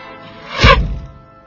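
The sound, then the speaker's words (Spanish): A crossbow arrow strikes an apple in one swift whooshing thud that swells to a loud, deep peak and then fades away smoothly, a single impact heard alone. “Guillermo Tell, sereno, levantó su arma, apuntó y disparó la flecha.”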